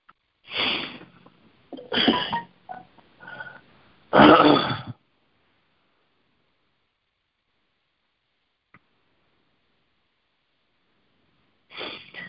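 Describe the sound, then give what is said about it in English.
Throat clearing from someone with an allergy: several rough, raspy bursts in the first five seconds, then a long silence and one more short clearing at the end. No talking. “somebody said something about the clearing in my throat coming across on the airways”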